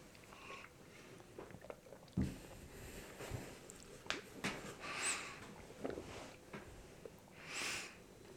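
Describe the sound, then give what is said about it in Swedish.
Quiet, wet chewing and biting as someone eats pancakes with homemade queen's jam of hand-picked lingonberries and raspberries, with several soft snorts of breath between mouthfuls. “om ni undrar vad det som låter så är det ljud av pannkakor med hemmagjord drottningssylt. Och hemmaplockad drottningssylt.”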